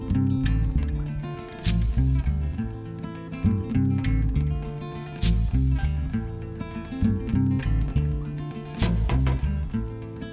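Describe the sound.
A folk-blues song plays on its own, with heavy low bass tones and a steady rhythmic groove, punctuated by a few sharp bright accents spread across the passage.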